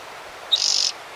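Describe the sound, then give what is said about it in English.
A bird calls outside with a single short, high-pitched trilled call made of quick pulses. It sounds alone over a soft, steady background hiss. “Maybe two birds out there.”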